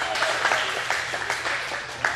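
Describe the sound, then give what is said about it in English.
Applause from an audience thanking volunteers who helped with a demonstration during a Bible lesson, a loose patter of claps with murmuring voices mixed in, moderately loud and steady throughout. “Give them a round of applause for helping.”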